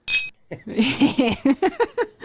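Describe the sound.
Glasses clink in a toast, a single bright ringing clink at the very start, followed by someone talking.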